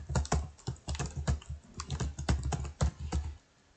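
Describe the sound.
Rapid typing on a computer keyboard while writing out event details, an irregular clatter of many keystrokes at a moderate level that stops just before the end.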